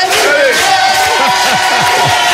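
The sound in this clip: An audience of 150 people cheers and applauds in a loud, continuous roar, with shouting voices rising above the dense clapping from start to finish.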